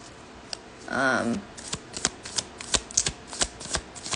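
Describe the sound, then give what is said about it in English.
Tarot cards being shuffled and drawn: a brief riffling burst near the start, then many sharp, irregular card snaps and clicks that grow denser toward the end. “I'm going to pull a card.”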